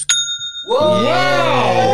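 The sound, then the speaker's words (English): An online store sale notification chime rings once as a short, bright ding with a lingering tone. A person's excited exclamation follows. “That's the sound of making a sale on Shopify”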